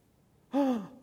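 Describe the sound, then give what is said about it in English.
A single short human gasp, a voiced breath that starts abruptly out of near silence and trails off with a slight drop in pitch. “Gasp.”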